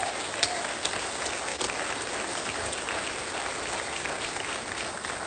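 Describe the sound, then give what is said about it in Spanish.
Applause from a church audience: dense, even clapping that runs steadily through the whole clip without a break, moderately loud, with no voices standing out. “yo creo que merece un aplauso eso.”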